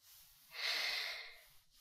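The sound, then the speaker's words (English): A forced exhalation, air pushed out of the lungs on instruction, comes as one long breathy whoosh of about a second. It swells quickly and then slowly fades, soft and alone. “I want you to take a deep breath in, and when I say out, you're going to keep pushing air out of your lungs, okay?”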